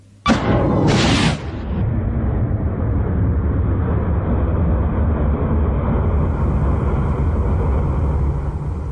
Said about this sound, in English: The U.S. Department of Defense later yesterday evening posted this unclassified short video that appears to show a missile being launched from a military vessel.